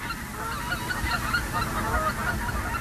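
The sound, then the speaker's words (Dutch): Geese honking in a nature reserve near Groningen: a dense, steady chorus of many overlapping honks that carries on fairly loudly throughout, with no talking. “Meer dan genoeg ganzen hier”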